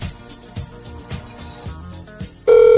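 Outgoing Viber call ringing: after a quieter stretch of soft rhythmic thumps, a loud, steady ringback tone cuts in and holds to the end.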